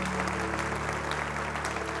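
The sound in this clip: A church audience applauds to welcome first-time guests, a steady, dense wash of clapping that holds at an even level throughout.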